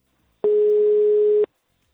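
A telephone ringback tone plays while a call waits to be answered. It is a single steady, mid-pitched hum lasting about one second, loud and alone, with silence before and after.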